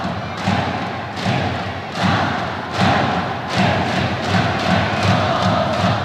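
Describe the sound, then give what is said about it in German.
A stadium crowd of football fans, including the North Korean minority in Japan, roars and chants in a loud, dense wash, with rhythmic thumps pulsing steadily through the noise. “Schon im Vorfeld haben etwa Schülergruppen Flaggen gebastelt oder Choreografien eingeübt. Im Stadion klingt das dann so.”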